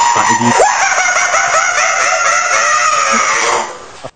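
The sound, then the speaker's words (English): A rooster crow serves as the losing sound effect in a radio phone-in competition: one long, loud cock-a-doodle-doo held for over three seconds alone, then cut off. “That is the sound of you losing. So hopefully you won't hear that sound.”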